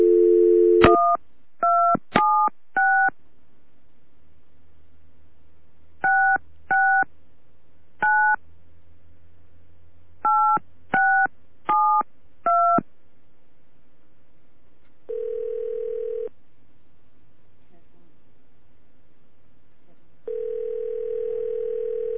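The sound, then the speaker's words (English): A telephone number is dialled on touch tones: a steady dial tone leads into a series of short electronic beeps in irregular clusters as the digits are punched in, followed later by longer single tones. “Dial the number, please.”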